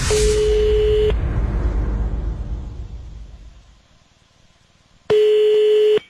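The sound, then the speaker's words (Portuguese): Telephone line tones sound as a call is dialed: a steady beep over loud hissing noise, then the hiss slowly fades away before a second, identical beep. “no quadro de hoje vamos ligar para a Shirley.”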